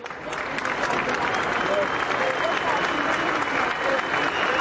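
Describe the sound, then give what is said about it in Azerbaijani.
Tens of thousands of mourners applaud as a journalist's funeral procession passes his newspaper's office; dense, steady clapping rises after a brief softer start and holds evenly to the end. “Dink'in cənazəsi işlədiyi qəzetin redaksiyasının yanından keçiriləndə 10 minlərlə adam əl çalıb.”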